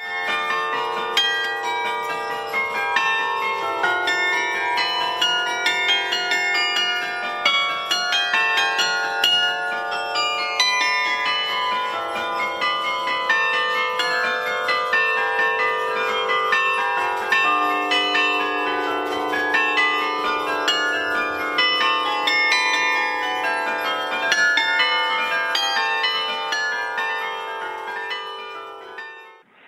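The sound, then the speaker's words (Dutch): Carillon bells of the Park abbey complex, whose carillon dates from around 1730, play a continuous melody. Many struck bell tones ring and overlap with sustained, shimmering resonance at an even, fairly loud level for about half a minute, with no talking. “Heel toepasselijk beginnen we dan ook met een stukje van de bijaard te laten horen.”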